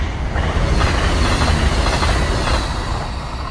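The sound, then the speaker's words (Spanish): A train passing close by a fence, a loud, continuous rolling rumble with faint rhythmic clatter of wheels on the rails, holding steady before easing slightly at the end. “pero no sé yo si disculpar el tren que estoy pasando cerca de”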